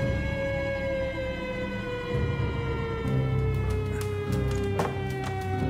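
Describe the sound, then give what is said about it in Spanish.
A newspaper's sirens wail during the 1930 coup in Argentina, a loud chord of sustained tones whose pitch slowly sinks, with a few sharp clicks appearing in the second half. “Tras firmar su dimisión, Martínez abandona Casa de Gobierno mientras las sirenas del diario Crítica resuenan victoriosas.”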